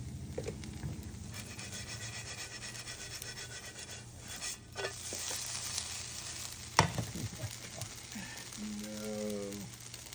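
Food sizzling in a frying pan as it is shaken and flipped, a constant hiss of frying with rubbing, scraping movements and one sharp knock against the pan partway through.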